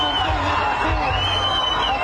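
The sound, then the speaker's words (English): Crowd cheering erupts as the first two hostages are released by Hamas, a dense, steady roar of many voices with shouts layered over it throughout. “Cheers when the first two hostages were released by Hamas today.”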